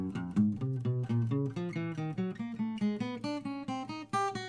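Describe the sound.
Bass guitar played alone in a 3-2-1-4 fret finger exercise repeated on each string: a steady, even run of many plucked notes that climb gradually in pitch as it moves across the strings.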